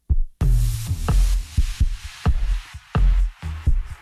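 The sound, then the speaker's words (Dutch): A woman's heartbeat thumps in deep, loud, muffled pulses, many beats in a quick, steady lub-dub rhythm with no voices. “Dit is de hartslag”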